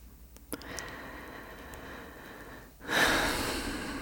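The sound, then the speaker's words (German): Slow, deep breathing during a guided relaxation exercise: a soft, airy breath with a brief sharp sniff early on, then a louder, steady rush of air filling the final second. “Und einatmen, ausatmen.”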